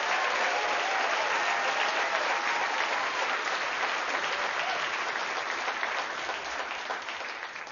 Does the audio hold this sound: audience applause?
yes